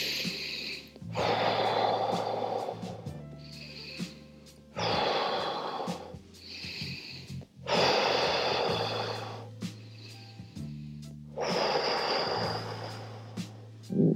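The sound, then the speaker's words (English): Slow, deliberate breathing in a breathing exercise uses short in-breaths and longer out-breaths, counting in for three and out for five. Four loud, airy breath sounds are separated by pauses, over low sustained tones that step between pitches. “And notice that it's those longer out breaths. So in for three, out for five.”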